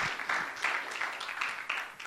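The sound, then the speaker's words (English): Applause welcoming a church secretary: dense, steady clapping from a group that continues evenly throughout, fairly soft overall. “let's give her a hand to welcome our church secretary, Sister Peggy”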